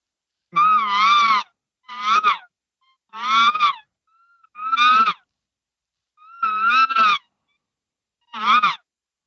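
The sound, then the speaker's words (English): Six harsh, buzzy screamed vocal bursts made with a diaphragm-driven 'extra scream' technique. Each burst is loud and short, rich in gritty overtones, and separated by brief silences. “No, I do it with diaphragm. Okay. So extra scream is done with a buzz. It's just So I'm gonna do it right now.”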